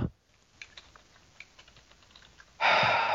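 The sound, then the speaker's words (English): Fast typing on a computer keyboard: a rapid, uneven patter of many light, quiet key clicks, cut off by a sudden, louder rushing burst of noise at the end. “Trying to type fast.”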